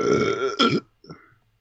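A man lets out one loud, drawn-out burp with a rough, buzzing vibrato that swells and cuts off abruptly, followed by a brief, fainter throaty sound.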